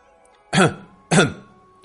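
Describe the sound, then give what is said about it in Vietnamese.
A man gives two dry, hacking coughs in quick succession. Each is a short, loud burst over a faint steady hum. “Bên ngoài lầu các, một đạo nhân cao 5 thước ho khan một tiếng.”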